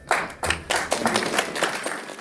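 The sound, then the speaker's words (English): Mocking slow clap from an audience: a steady series of sharp hand claps at an even rhythm, moderately loud, with no voices. “Now, let's talk about the slow clap. A slow clap is unlike any other clap.”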